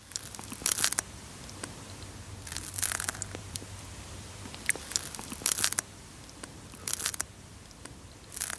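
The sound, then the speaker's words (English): A snail eats a piece of lettuce in an anechoic chamber. Soft, crisp crunching and tearing come in irregular clusters of crackly bites with faint ticks between, quiet and alone. “that's the sound of a snail chowing down on a piece of lettuce.”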